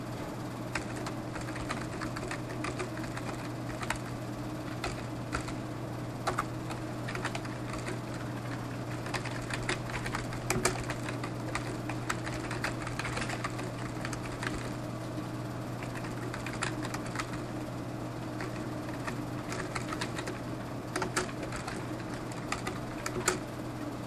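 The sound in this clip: Typing on a computer keyboard while entering user information for an update: a long, continuous run of quick, irregular key clicks at moderate level over a constant low hum.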